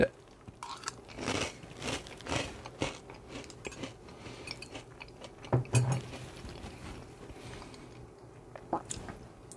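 Crunchy snacks are chewed, with many irregular, crisp crunches and bites in uneven bursts, fairly loud and with no talking over them.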